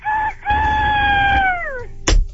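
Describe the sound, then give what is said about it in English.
A person vocally imitating a rooster's crow: a short opening note, then a long, loud drawn-out call that bends downward at its end, followed by a brief burst of noise. “Are you ready? Like, actually cock-a-doodle-doing. Yes. I mean, I want you to be a rooster.”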